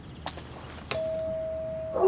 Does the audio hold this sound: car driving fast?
no